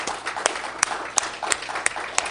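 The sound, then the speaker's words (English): Audience applause at a church gathering, honoring a deacon: a steady, dense patter of many hands clapping, with a few sharper individual claps standing out at intervals. “So how about a nice round of applause for Deacon Rick?”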